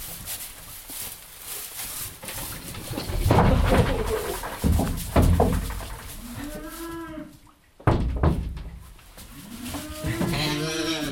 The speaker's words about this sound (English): I'll show you this little deal here where I pull the calves. Just kind of go in here with the calf.